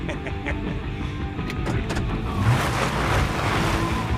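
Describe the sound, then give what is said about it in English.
Low engine rumble of a truck reversing, a steady droning hum that holds level throughout and grows slightly louder and more hissy toward the end. “The truck reverses back to Greg, Rowley, and Manny.”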